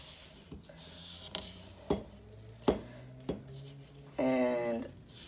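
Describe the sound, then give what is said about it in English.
A utensil presses flour into a mixture in a bowl, making a few sharp taps and knocks against the bowl, followed by a longer scraping rub. The sounds are fairly faint overall. “I'm pressing it into my mixture”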